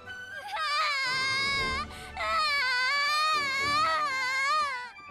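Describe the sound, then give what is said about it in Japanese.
A young child cries in two long, high, wavering wails with a brief catch between them. The crying is loud and stands alone. “泣くばっかで話聞いてくれない”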